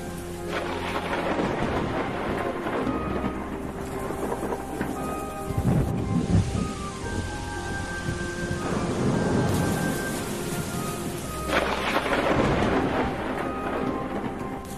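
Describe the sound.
Heavy rain pours down in a dense, continuous hiss, with deep rumbles of thunder rolling underneath throughout.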